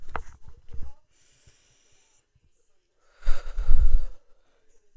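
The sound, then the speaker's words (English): A deep breath with faint breathy sounds at first, then after a pause a long, audible, sighing exhale, close and fairly loud against silence. “So let's just go ahead and take our deep breath.”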